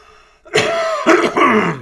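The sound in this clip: Someone coughs and clears their throat in a few loud, rough bursts that run together, after a faint lead-in.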